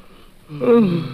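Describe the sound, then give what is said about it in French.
A person yawns: a quiet, breathy onset opens into one drawn-out voiced yawn with a slightly falling tone that fades out. “Et là, je vais pouvoir bailler tranquillement.”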